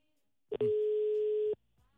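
A telephone ringing tone on a call: one steady, even-pitched tone lasting about a second, preceded by a brief click and followed by quiet.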